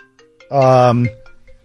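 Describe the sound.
A mobile phone ringtone sounds once as a loud, steady, bright tone lasting about half a second, then stops, leaving a faint background.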